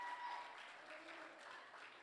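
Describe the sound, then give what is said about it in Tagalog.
Worshippers at a church service clap their hands in praise of the Lord, a faint but steady spread of applause that rises slightly early on, then settles and keeps going. “Okay, palakpakan natin ang Panginoon.”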